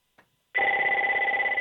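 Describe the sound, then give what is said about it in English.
A telephone rings with one steady, loud electronic trill that starts after a brief faint click and continues unbroken to the end, with no talk. “That's not my phone. That's not mine.”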